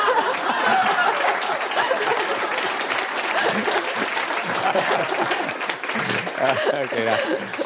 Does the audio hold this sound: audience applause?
yes